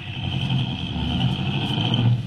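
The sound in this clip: A car engine hums steadily under a low rumble, holding an even level throughout with no clear revving. No one speaks.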